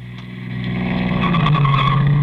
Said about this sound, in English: Squealing around one corner like that can take as much rubber off your tires as miles of straight driving.